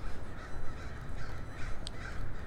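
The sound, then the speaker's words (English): Crows cawing as they fly over a city street walk, a few faint caws above steady background noise. “Yeah, any crow sound you're hearing on this walk is flying crows.”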